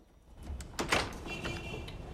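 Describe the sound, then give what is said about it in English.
A door is opened and then closed: a quiet handle rattle followed by a sharper knock of the door, then a soft lingering hiss. “Peter opens it. Then, with a nod, his lover leaves, and Peter closes the door behind him.”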